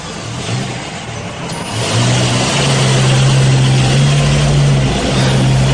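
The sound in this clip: A car engine pulls away from a hospital: a steady low hum that steps up and grows louder about two seconds in, then holds firm to the end.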